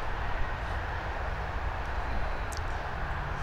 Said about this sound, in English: There goes the subway.